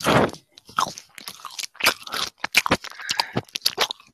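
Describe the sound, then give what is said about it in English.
Crunching of toast being eaten, with a run of many sharp, irregular crisp bites and chews, moderately loud and dry, separated by brief pauses. “Oh my god, I'm making toast. Toast. You're making me hungry. Stop eating.”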